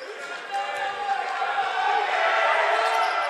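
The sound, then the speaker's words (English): Crowd noise from fans across the gym at a men's college basketball game, heckling a player: a dense, steady wash of many voices that grows slightly louder toward the end. “And you can hear the holy fans across the way giving him some grief.”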